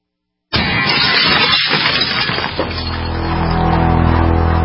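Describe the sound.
Glass smashes in a home break-in, a sudden loud shattering crash out of silence whose broken noise lingers before giving way to a low, steady droning hum.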